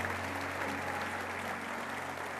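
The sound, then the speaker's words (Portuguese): Dense, continuous applause from an audience clapping for the women during a religious talk. It is even and sustained throughout, moderately faint, with a low steady hum underneath. “Pode aplaudir as mulheres, então. Vamos lá.”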